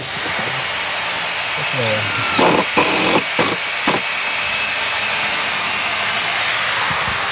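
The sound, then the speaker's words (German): Hammering and screwing as a festival site is built next to a tennis court in Bonaduz. A few sharp knocks cluster in the middle over a steady hiss of background noise. “Es wird gehämmert und geschraubt neben dem Tennisplatz zu Bonaduz.”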